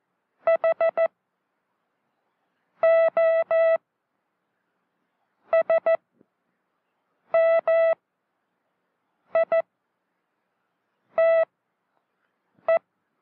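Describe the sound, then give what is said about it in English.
Morse code letters made entirely of dits or entirely of dahs, keyed as a steady single-pitch beep tone. Seven separate letter groups of short or longer pulses are spaced by clear silences. “Very small, tight spaces between the dits and das in a character. As the operator will now demonstrate, with letters that are all dits or all das.”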